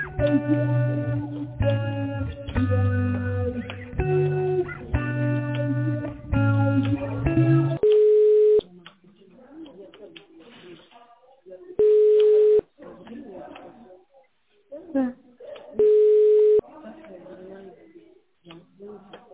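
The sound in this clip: A telephone call is redialed over a phone line. A sequence of melodic tones comes first, then three long, steady ringback tones with muffled talk between them.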